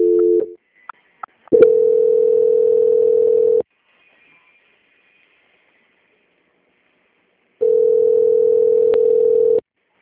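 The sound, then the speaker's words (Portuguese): Steady mid-pitched telephone line tone during a call transfer, with a short burst followed by two long, even tones of about two seconds each, separated by silence. “Agora eu vou pedir para o senhor permanecer em linha que eu vou estar fazendo a transferência para eles darem a continuidade na contratação, tá bem?”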